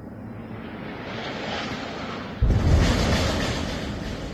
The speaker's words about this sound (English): Anas al-Sharif posted 13 seconds of video of heavy bombing in Gaza City